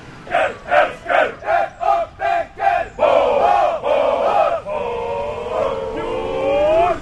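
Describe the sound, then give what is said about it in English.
A group of 23 Finnish men gathered on grass shout loudly in unison, first with a run of short, rhythmic barked shouts, then with long, sustained, powerful cries that settle into a lower, steadier chant. “They've walked around once, and it appears they're going to assemble over here in the grass and shout.”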